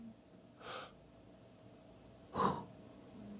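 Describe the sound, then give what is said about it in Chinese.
A person demonstrating chest breathing draws two short, quiet inhales about two seconds apart, with no talking. “我用胸式呼吸的时候，我肚子会凹下去哦，我不动横膈膜哦，看我一样在吸气哦”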